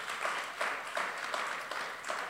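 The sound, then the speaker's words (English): An audience gives a praise clap during a sermon: steady, broad applause with a loose rhythmic pulse of repeated clap bursts, moderately loud and with no talk over it. “Yeah, give God a good praise clap.”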